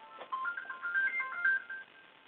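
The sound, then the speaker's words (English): A phone ringtone warbles alone, faint and thin, with chirpy electronic tones that step up and down in a repeating melodic pattern. “And that's my phone.”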